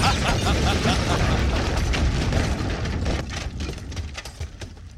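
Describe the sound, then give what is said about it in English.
German shellfire explosions destroy a building at St. Eloi in a staged sound effect, a dense roaring rumble with crackling debris that stays heavy at first and then thins and fades toward the end. “It was chaos. German shellfire destroyed the building and St. Eloi was lost.”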